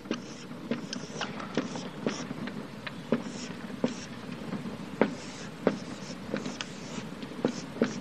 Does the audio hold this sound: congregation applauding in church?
no